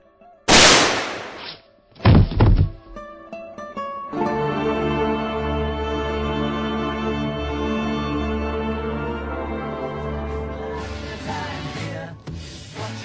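Two loud, sharp shotgun blasts in quick succession in a radio comedy sketch, each with a short rough tail, followed by sustained music that swells and holds until the end.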